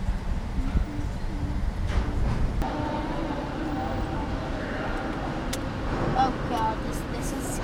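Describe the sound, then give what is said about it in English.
Steady low rumble of a car driving onto a ferry, a broad even drone with faint clanks and rattles on top and no clear change in level. “We're driving onto the ferry now.”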